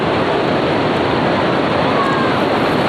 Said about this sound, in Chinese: 逆流而上，仿佛千军万马正在向我们奔涌而来。而大家能不能听到现场的轰鸣声和风力似乎也在逐渐加强啊